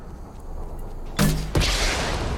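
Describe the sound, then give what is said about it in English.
Two abrupt booming blasts from a defense cannon fired in a video game, the second coming about a third of a second after the first, each leaving a sustained rumble behind it. “Defense cannon. Let's see what the human can do. Okay. Shoot the piejacks. Space bar to fire.”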